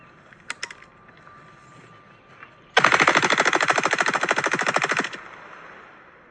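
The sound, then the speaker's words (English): Rapid automatic gunfire aimed at Bud Light beer cans: a loud, sustained burst of many evenly spaced shots lasting a couple of seconds, preceded by a few faint clicks. “The reason Kid Rock is shooting at beer cans with maybe another person on the side also shooting”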